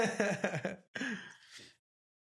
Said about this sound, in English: It's snoring, we know that one.